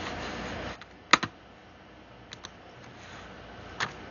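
Computer keyboard typing as someone enters a reply in an online chat box: a few sparse, sharp keystroke clicks scattered over a steady low hiss, with no voices.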